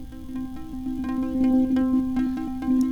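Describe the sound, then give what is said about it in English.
Modal synth resonator driven by a bit collider gives a steady, buzzy, mid-low drone. Its pitch holds fairly constant, with small wobbles and flickering upper overtones throughout, and it plays alone at moderate loudness. “so as you know, I've got the bit collider plugged into the resonator of the modal synth, and normally it sounds like this.”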